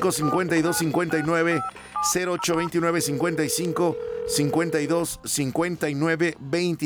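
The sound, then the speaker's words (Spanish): Telephone dialing tones on a phone line while a number is dialed. Short keypad beeps and a sustained steady tone sound beneath a voice that continues throughout. “Me voy a la línea telefónica, abro la número 7 para marcarle a don Enrique Isidro.”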